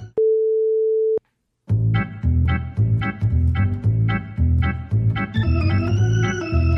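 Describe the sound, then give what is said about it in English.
A single steady electronic beep tone, clear and loud, lasts about a second, then after a short silence rhythmic music with a regular beat starts and continues. “Pause the audio at the beep”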